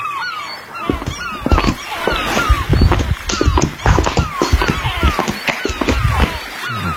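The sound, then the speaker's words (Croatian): A gull calls over and over in short, descending honking cries that come loud and fast, over busy clattering and scraping on a laminate floor. “Još da je plaža, a ne laminat. Galeb.”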